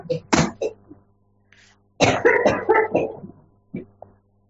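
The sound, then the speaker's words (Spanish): A woman coughs in harsh bursts: a short pair first, then a rapid run of hacking coughs after a pause, and a couple of fainter single coughs at the end. “Está tosiendo mi suegra”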